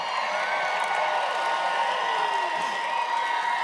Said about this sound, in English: The cheering, well, you're used to by now. It's coming from all around you, from an audience you're unable to see through the brilliant spotlight shining down upon you.